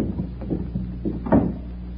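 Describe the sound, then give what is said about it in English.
A door leading out to a garden opens with a few soft, low knocks and rattles, followed by a firmer thump before it goes quiet. “This door leads to the garden. Now, follow me.”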